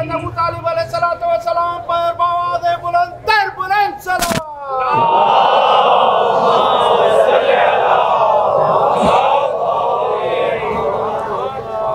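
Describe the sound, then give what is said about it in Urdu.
A crowd shouts a slogan for Ali in unison: a speaker's cadenced call and a sharp bang give way to a loud, sustained roar of many voices lasting several seconds. “مل کے لگائیں ذرا ایک نعرہ، علی کی”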